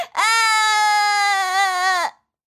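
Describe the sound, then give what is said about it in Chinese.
A kitten cries in one long, drawn-out wail, high and steady in pitch with a bright, tonal quality, loud and alone, ending abruptly after about two seconds. “天天回头一看，是小猫妙妙哭了。”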